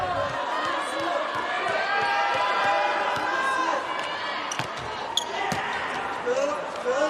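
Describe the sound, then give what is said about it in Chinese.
A volleyball is bounced before a serve in a match involving Brazil, giving a few sharp, thudding bounces under a commentator's continuous talk and a steady crowd murmur. “麦亚拉上来发球”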